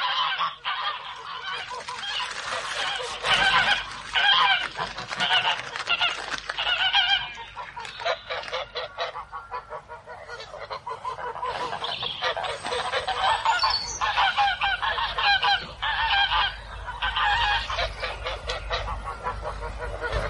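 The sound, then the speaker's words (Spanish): Geese honking and squabbling in a corner of a courtyard: a dense, continuous chorus of harsh, overlapping nasal calls that stays loud throughout, with only a brief lull near the middle. “De repente vi a los gansos que estaban graznando y peleándose en un rincón del patio.”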